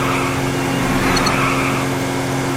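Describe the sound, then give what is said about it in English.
A steady, loud engine drone from cars on the road in a driving video game, constant throughout with faint high blips near the middle. “Just got hit by a car.”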